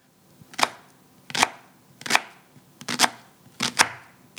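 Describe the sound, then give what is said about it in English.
A knife chops onions on a board in a home kitchen while a lentil stew is being made, giving a series of crisp, sharp cuts at an uneven pace, some coming in quick pairs, quiet and with no talk. “So I'm cutting onions.”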